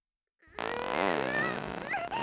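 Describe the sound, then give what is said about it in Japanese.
A long, loud fart: one continuous buzzing blast with a wavering pitch that holds steady for nearly two seconds, with no talk. “いっぱい臭いおなら出ちゃう。”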